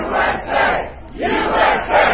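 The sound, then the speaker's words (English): A crowd shouting at a political rally ahead of the president's speech, with loud, repeated chanted swells that rise and fall in a steady rhythm. “Ahead of the president's speech, patriots in the crowd shouting,”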